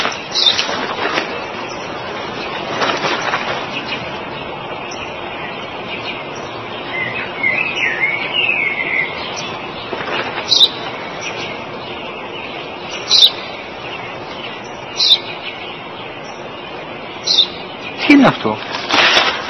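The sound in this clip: A house sparrow chirps a few short, high notes, scattered sparsely over a steady low background murmur.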